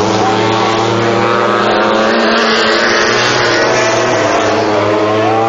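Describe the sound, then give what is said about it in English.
A racing motorcycle roars by during qualifying at a circuit. The high-revving engine makes a loud, dense, buzzing drone that holds steady throughout, with no clear rise or fall. “Just saw Bayliss ride by. Here comes Rossi around the corner.”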